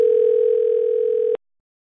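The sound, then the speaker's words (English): A telephone rings with a single steady electronic tone lasting just over a second, then cuts off abruptly into silence, with no voices. “somebody's got a telephone ringing.”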